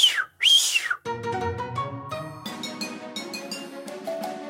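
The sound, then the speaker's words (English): Two shrill human whistle blasts with sliding pitch, a sheepdog trial run command meant to keep the dog coming, each under half a second, followed by other tonal sounds. “the dog has to respond to every little whistle stop command that you give that dog. I have a run whistle, which is”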